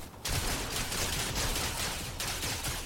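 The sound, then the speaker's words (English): Rapid gunfire from a video game as players shoot into a bush: many dense, overlapping shots in a loud, continuous barrage with no talking. “Everybody's just shooting into the bush.”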